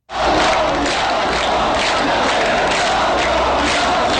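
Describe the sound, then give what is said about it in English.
Loud, continuous crowd noise of hundreds of migrants protesting outside the main rail station in Budapest, Hungary, after rail traffic from the terminal was suspended. Massed shouting and chanting voices form a dense, unbroken roar throughout. “And that is the sound of hundreds of migrants protesting outside the main rail station in Budapest, Hungary”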